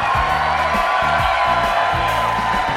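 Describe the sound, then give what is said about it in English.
A rowdy, large theater crowd at the Merle Reskin Theater at DePaul University in Chicago cheers and whoops. It is a loud, continuous wall of crowd noise with raised voices rising out of it. “We are on stage in front of a rowdy and large crowd”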